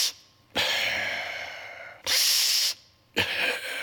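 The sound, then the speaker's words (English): A voice imitates a boy's laboured, machine-like breathing: three harsh, hissing breaths, the first long and the next two shorter, separated by brief quiet gaps. “I'm not making fun, but this is the way this boy breathes.”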